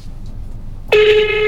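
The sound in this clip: A telephone call tone: after a quiet stretch, a single steady electronic tone starts abruptly and sustains to the end.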